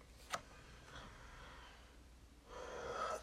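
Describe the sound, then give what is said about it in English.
A deep breath drawn during a calming talk, heard as a soft, airy rush of breath near the end, preceded by a brief sniff-like puff. Both are faint against a quiet background. “Just take a deep breath”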